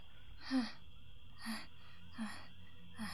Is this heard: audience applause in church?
no

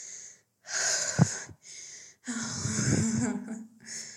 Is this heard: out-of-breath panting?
yes

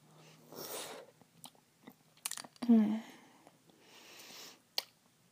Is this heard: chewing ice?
yes

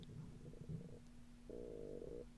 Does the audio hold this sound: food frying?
no

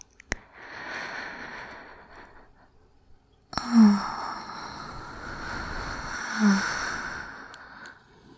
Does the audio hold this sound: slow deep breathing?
yes

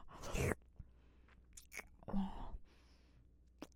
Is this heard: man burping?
no

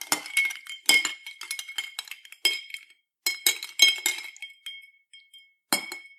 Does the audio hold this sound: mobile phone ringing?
no

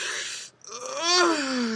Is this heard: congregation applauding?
no

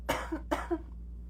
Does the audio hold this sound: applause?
no

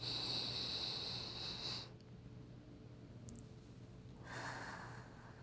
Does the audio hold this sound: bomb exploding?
no

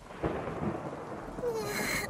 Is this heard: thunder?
yes

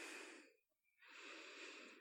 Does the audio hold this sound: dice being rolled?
no

